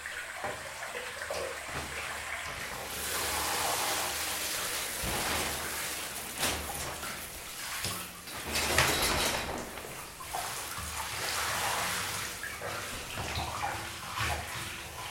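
Water running in a bathroom before a shower: a steady, hissing rush of falling and splashing water whose intensity swells and dips but never stops.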